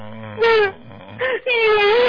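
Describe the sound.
A woman crying and sobbing: three strained, wailing bursts of high, tonal voice, the first and last long and loud, the middle one short, separated by quieter breathy gaps.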